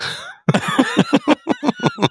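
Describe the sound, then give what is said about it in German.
Rapid coughing from someone with a frog in the throat: many short, hard bursts in a steady, fast rhythm, loud and alone after a brief hoarse vocal sound at the start. “Oh Gott, Entschuldigung. Jetzt habe ich gerade einen Frosch im Hals. Jetzt ist er wieder weg.”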